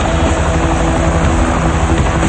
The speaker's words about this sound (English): At a landing, a man waits near a car. The helicopter lands,